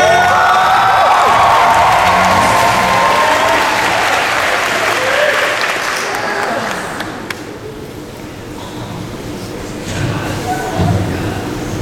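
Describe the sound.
Applause and cheering from a convention audience for cosplayers dressed as Dark Magician and Dark Magician Girl: a loud, dense wash of clapping that fades after about six seconds into quieter crowd murmur and scattered claps.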